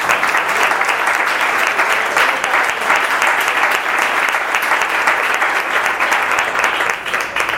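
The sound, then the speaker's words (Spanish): Dense, steady applause from an audience at a live reading of poems and songs, many hands clapping at an even, loud level throughout with no voices above it. “Un fuerte aplauso para Virginia Moreno.”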